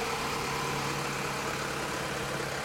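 Engine of a police car in a park: a steady, unbroken mid-to-low hum with a constant drone, moderately loud and alone without voices.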